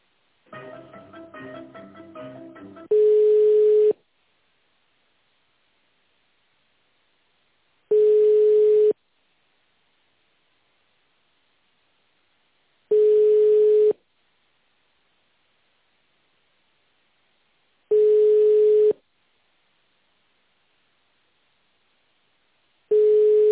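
A telephone line tone plays while a call is transferred: after a brief muffled melodic snippet, five long single-pitched beeps of about a second each repeat at steady intervals, separated by silence.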